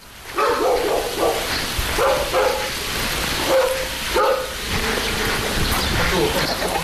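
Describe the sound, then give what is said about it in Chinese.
Dogs bark in a village courtyard, with many short, sharp woofs and yips in an uneven rhythm over several seconds, some overlapping, set against a constant hissing background noise. “闫余山家的小院鸡犬相闻”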